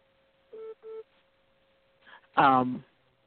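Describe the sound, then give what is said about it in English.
Two short electronic beeps from a phone signal an incoming call during a conversation. They are evenly spaced and mid-pitched over a faint steady tone, and a brief voice follows after a pause. “Hold on, I have a phone call coming in.”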